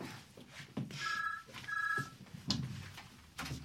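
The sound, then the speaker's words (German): A telephone rings with an incoming call: two short bursts of steady, high electronic ringing over a low, rumbling background. “Oh, und ein Anruf. Jemand ruft an.”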